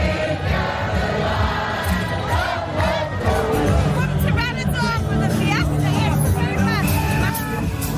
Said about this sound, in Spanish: En un rápido paseo por sus calles, pasamos de la siempre bulliciosa Zona Guiri y sus animados locales con música en directo